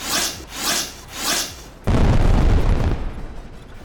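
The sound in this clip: Magic missiles striking a target during a tabletop role-playing game: three rhythmic rushing swells, then a sudden loud, rumbling explosion that holds and slowly thins out.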